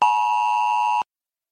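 A mobile phone beeps for a city disaster-safety text alert: one steady, bright electronic tone holds for about a second and then cuts off into silence.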